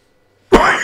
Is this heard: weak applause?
no

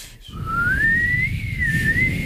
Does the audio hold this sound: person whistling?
yes

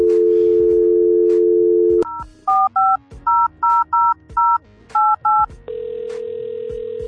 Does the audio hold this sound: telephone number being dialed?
yes

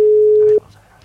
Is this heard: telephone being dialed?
yes

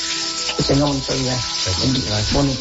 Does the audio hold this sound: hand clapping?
no

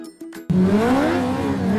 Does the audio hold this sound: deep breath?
no

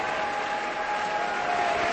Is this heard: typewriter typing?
no

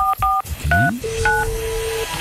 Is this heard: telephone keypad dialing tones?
yes

